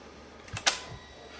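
A camcorder tape cassette loads itself into the mechanism with a few sharp mechanical clicks and clacks close together, then a soft low thump. The sounds are brief and crisp, and no one speaks.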